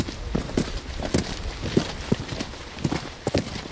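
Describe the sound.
Footsteps walk along a concrete road into the Teutoburg Forest at night. Many sharp, hard clicks land in a steady walking rhythm over a low background hiss.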